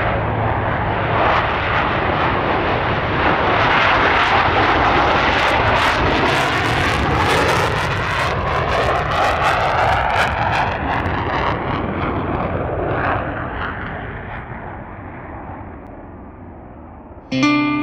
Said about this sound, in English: Wind 1103, clear for takeoff.